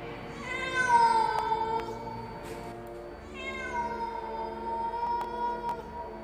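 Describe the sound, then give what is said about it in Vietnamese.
A cat meows wildly in two long, drawn-out wailing calls. Each is loud and harmonically rich, with a short gap between them. “Rồi có nghe tiếng mèo kêu lên man dở.”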